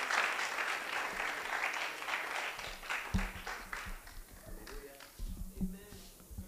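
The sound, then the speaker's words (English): A church audience applauds to welcome a visiting bishop to the service. The clapping is faint and thins out, and voices come in over it. “Oh, put your hands together and welcome Bishop Kweku for coming.”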